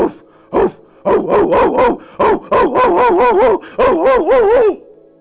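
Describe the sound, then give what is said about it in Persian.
A dog barks in many loud, quick bursts, some clustered into rapid runs, with a yelping, wavering tone before it falls quiet. “سگ. سگ.”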